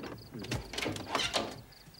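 A door being opened, with creaking, rattling mechanical sounds and a few louder clunks across about two seconds, no voices.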